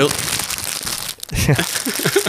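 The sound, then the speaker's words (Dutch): Wrapping paper crinkles and crumples as a gift for an expectant father, a stuffed monkey sleep toy, is unwrapped, the rustling bursts coming in uneven handfuls under people talking. “En je mag hem meteen uitpakken.”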